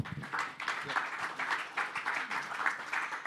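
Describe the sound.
Applause from a church gathering welcoming a speaker: a soft, even patter of many hands clapping that continues steadily throughout.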